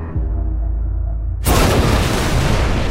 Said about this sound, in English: a great flash as the nuke detonates into a perfect sphere of white-hot plasma in front of the shield. The shield absorbs much of the blast